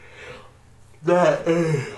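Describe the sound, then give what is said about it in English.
A voiced yawn: a breathy, tonal groan in two connected parts that trails off with a falling pitch at the end, following a quiet pause. “I just got hit with a random yawn”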